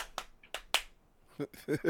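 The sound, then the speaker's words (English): A hand slapping against a leg in place of clapping gives three sharp, quick smacks, crisp and fairly loud, followed by a short burst of voice. “I had a joint in my hand, so I couldn't clap it, so I just slapped against my leg.”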